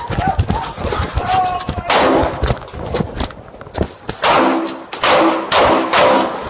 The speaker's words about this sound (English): And Dave, there we go. We have some 13 or 14 rounds fired off of that.